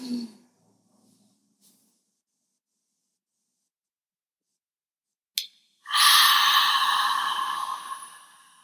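A hard, forceful exhale during a breathing exercise: after a long near-silent stretch, a loud breathy rush of air pushes out for a few seconds and then tapers off.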